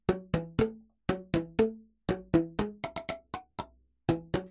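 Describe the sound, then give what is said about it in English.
Hollow plastic boomwhacker tubes struck to play a tune: many short, bright pitched tones in quick groups of three or more, each note decaying fast into brief silence, with no voices. “That's the sound of some boomwhackers playing "You're a Grand Old Flag."”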